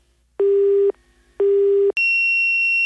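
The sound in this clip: Telephone tones play as a call cuts off from bad reception: two steady low beeps separated by a short pause, then a sustained higher-pitched electronic tone.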